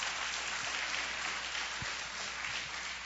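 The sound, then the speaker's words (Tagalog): A church audience applauds, a steady, unbroken wash of many hands clapping, fairly faint throughout. “Pwede pong palakpakan natin ng Panginoon, mga kapatid?”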